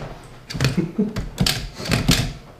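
Keys clack on a typewriter as a letter is typed during a test of the machine, giving irregular bursts of sharp, crisp strikes over low mechanical thuds.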